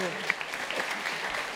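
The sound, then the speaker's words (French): Brief, light applause from a television studio audience, a soft patter of claps with a few sharper individual hits, mixed with talking. “Ça, il y a eu des applaudissements. Oui, on peut l'applaudir.”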